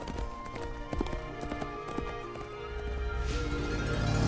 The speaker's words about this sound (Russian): Лошадь скачет мимо деревьев.